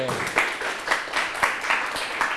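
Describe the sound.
A classroom audience claps for a student group, a dense patter of hands with several louder, evenly spaced bursts giving a loose rhythm over the steady clapping.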